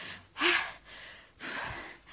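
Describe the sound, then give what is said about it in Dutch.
A person gasps for air after running out of breath, taking two heavy, breathy inhalations separated by a brief pause. The first is sharper and louder than the second. “Ik ben mijn adem kwijt.”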